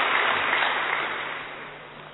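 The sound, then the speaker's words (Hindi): Applause from a gathered audience, dense steady clapping that stays even at first and then gradually fades. “अपने लिए जोरदार खुशी की ताली बजाइए।”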